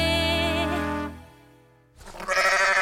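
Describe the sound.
A voice imitates a sheep's bleat: one wavering, quavering 'baa' lasting about a second that fades away, followed by a louder, noisier sound starting near the end.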